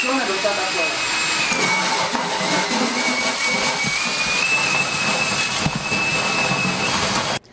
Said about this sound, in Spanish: una vez de que ya aspiraste el polvo de todas las ventilas de tu casa